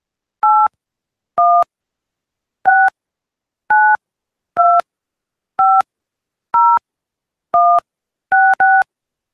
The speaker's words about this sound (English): Or enter the phone number including the area code at which you would like to be called, followed by the pound key.